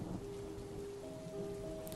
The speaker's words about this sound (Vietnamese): vậy mà bây giờ thậm chí còn mưa lớn hơn lúc vừa đặt chân đến đây. Sấm sét nổ từng hồi rền vang